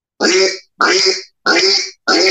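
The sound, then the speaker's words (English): Four raspy, hoarse duck quacks blown on a duck call, each lasting about half a second, evenly spaced and loud, with no talking. “The O-O positions the throat. And there you go. You got a quack.”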